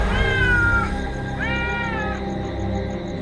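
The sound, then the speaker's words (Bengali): A fat cat that has dropped into a courtyard meows twice, each meow drawn out and wavering, clear and fairly loud with no talk over it. “আমিও এগিয়ে গেলাম, দেখি উঠোনের ঠিক মাঝখানে একটা মোটা সোটা বেড়াল এসে পড়েছে।”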